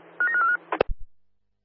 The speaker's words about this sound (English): dialing now